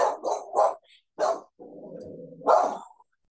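A dog barking in a short burst of three quick barks, then a single bark, a low rumbling growl, and one last loud bark, all fairly loud and with no talk over them.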